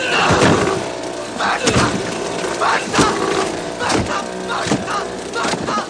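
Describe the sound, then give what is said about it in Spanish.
A wooden oar strikes a person in a boat several times, each blow a heavy, dull thud. The thuds land at uneven intervals over a constant background. “Dicky lo sujeta con ambas manos intentando levantarse sin conseguirlo. Tom lo golpea con el remo varias veces.”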